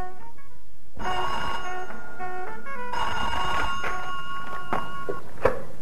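An old telephone bell rings loud and continuously in a scene from a vintage Italian television advert, with a brief break near the middle and a few sharp clicks, no voices.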